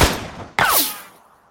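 A black powder gun fires a single sharp, loud blast, followed by a downward-sliding whizz and a fading noisy tail; a rushing noise dies away just before the shot.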